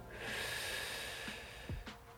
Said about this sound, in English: Now take a deep breath in and out. Another breath in